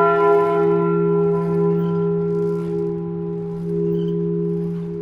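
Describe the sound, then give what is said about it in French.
Church bells of Notre-Dame cathedral ring in a loud, continuous resonant drone, overlapping deep tones and bright overtones sustaining steadily with gentle swells and no talking. “ça vous fait pleurer, les cloches?”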